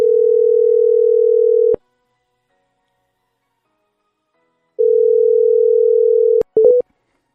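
A telephone ringing tone heard while dialing a number: two long, steady single-pitch tones separated by a few seconds of silence, followed by a few brief beeps at the end.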